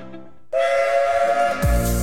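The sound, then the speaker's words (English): Steam locomotive whistle from an A1 class engine at a heritage railway: one loud, steady, sustained blast of about a second, then a deep rumbling burst. “See the legendary A1 class Tornado.”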